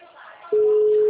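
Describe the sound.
A mobile phone error tone sounds as a loud, steady single-pitch beep that starts midway and holds unbroken to the end, after a short stretch of quieter speech.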